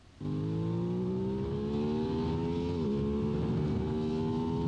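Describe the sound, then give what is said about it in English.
An Aprilia RS660 motorcycle engine revs on a canyon run, recorded on board. It starts abruptly, then holds a loud, rising whine with a brief dip partway through, like a gear change, before climbing again. “It says first canyon run on board with an Aprilia RS660. Y'all need to listen to this thing.”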